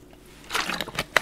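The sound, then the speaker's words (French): Someone takes a quick drink of water: soft, faint sips and gulping clicks over about a second, ending with a sharper click. “Excusez-moi, je bois un peu d'eau”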